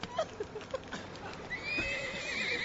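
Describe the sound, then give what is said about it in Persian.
A distressed horse gives a high, wavering whinny that rises and trembles through the second half, after a few scattered soft knocks and thumps. “اسبم داره میمیره.”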